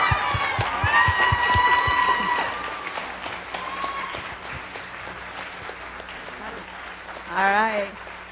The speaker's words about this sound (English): would you put your hands together? Would you welcome with me Kristen Hayes, our children's pastor? Come on, would you give her a hand?